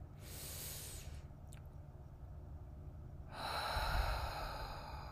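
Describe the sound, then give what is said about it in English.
Slow breathing during a guided breathing exercise: a long, soft, airy breath, a quiet pause, then another long breath, all faint and without talk. “So we're just gonna inhale for four, hold for four, and exhale for four counts.”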